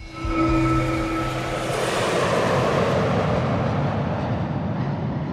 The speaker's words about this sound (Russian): Тонкие вибрации постепенно снижаются и переходят в гул самолетных двигателей.